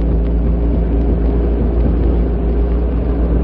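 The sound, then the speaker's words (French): Low, steady engine rumble of a car creeping slowly through fog. The drone holds even and continuous throughout, with no voices. “La voiture fraye lentement son passage à travers le brouillard”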